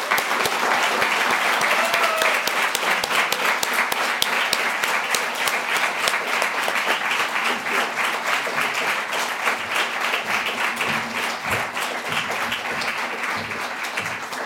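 Audience applause welcoming two authors onto the stage at a literary event, sustained dense clapping from many hands that carries on evenly for the whole stretch and eases slightly toward the end.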